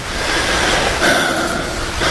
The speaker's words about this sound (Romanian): se liniștește marea.